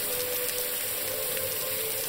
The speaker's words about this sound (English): and hop in the shower before bed. The water burns at first